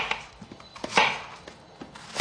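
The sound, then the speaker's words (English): Softened plantains mashed with the bottom of a bottle, heard as a few soft, irregular thuds and squashing knocks, fairly faint, with no voices. “Then comes the mashing, which you can do with the bottom of a bottle.”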